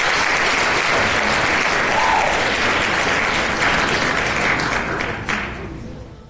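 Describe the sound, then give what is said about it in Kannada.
Applause from many clapping hands forms a dense, continuous patter that holds steady for about six seconds and eases slightly toward the end, with no voices over it. “ಚಪ್ಪಾಳೆ.”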